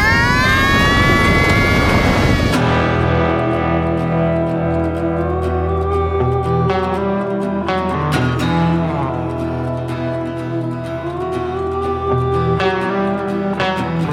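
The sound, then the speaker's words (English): An aircraft coming in for a hard landing, heard as a loud, continuous low rumble under swelling tonal effects and distortion, with a few sharp bursts along the way. “Brace yourselves. We're coming in for a hard landing.”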